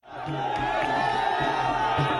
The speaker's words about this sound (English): Hundreds of jubilant supporters cheered Mom Sanando after his release from Phnom Penh's Prayasar prison.